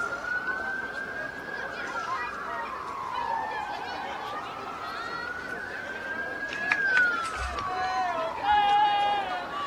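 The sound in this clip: An ambulance siren passes during a baseball game, wailing in slow rises and falls over a steady wash of background noise. It grows slightly louder toward the end.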